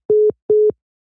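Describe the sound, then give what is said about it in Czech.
A telephone busy signal after a call cut off: two identical short tones at one steady low-mid pitch, evenly spaced and loud, followed by silence. “Tak se nám přerušil hovor po hodině.”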